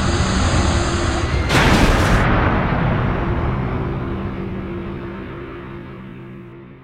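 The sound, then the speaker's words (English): A spaceship crash-landing on a garbage-dump moon: a sudden loud, harsh impact burst hits early, then a heavy rumbling roar slowly fades away. “At that point, we had no choice but to crash land on the Clod, that garbage dump of a moon.”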